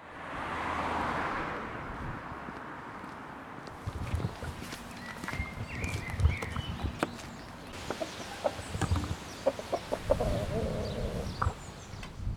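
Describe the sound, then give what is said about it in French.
Chickens cluck at a farm in the Saint-Pierre district of Brest, with scattered short calls and a rooster over a low, steady background, joined by shuffling steps. “Je suis parti à la ferme de Traillon-de-Billan, basée à Brest dans le quartier de Saint-Pierre.”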